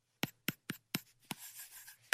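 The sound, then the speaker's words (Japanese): A stylus pen writes on an iPad screen: six sharp, hard ticks of the tip against glass, with a soft, scratchy stroke dragged between the last two taps. “確かにペンで書く音とかがいいのかな、 iPad は。”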